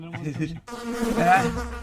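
Flies buzzing: a droning insect hum with a wavering pitch that dips briefly, then returns louder and denser, with no talking.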